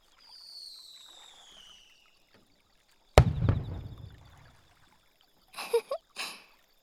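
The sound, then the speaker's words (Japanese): Fireworks going off in the sky: a whistling tone comes first, then one sudden loud bang with a long decaying rumble, and finally a few sharp crackling bursts. “花火です。この雰囲気にはぴったりじゃないですか。”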